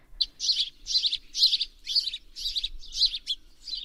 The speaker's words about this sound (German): Sitze noch draußen so stark und genieße die Rufe, die Paarungsrufe der örtlichen Gartenvögel.